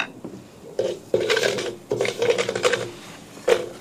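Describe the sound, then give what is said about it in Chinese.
Rice is stir-fried in a pan, with spatula scraping and clattering in several irregular bursts over a soft, continuous sizzle, moderately loud and alone. “香味一出就可以放入炒米，你看滋滋冒泡”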